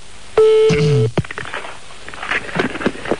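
A telephone number being dialed: a loud, sustained beep tone is followed by a lower wavering tone, then a quick run of clicks and softer scattered noise.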